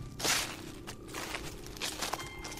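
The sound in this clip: Human footsteps approach: a few soft, uneven steps sound faintly, spaced irregularly against a quiet background.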